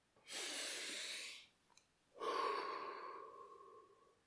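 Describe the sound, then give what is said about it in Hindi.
A long deep breath: a broad, airy inhale lasting about a second, a short pause, then a longer exhale that slowly fades away. No talk. “चल लंबी सांस ले छोटू ने लंबी सांस ली”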